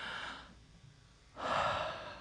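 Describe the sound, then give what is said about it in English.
A deep breath: two soft, breathy rushes of air separated by a quieter gap, the second one louder and fuller, with no words spoken. “So I'm going to stop, breathe. Everybody just breathe with me.”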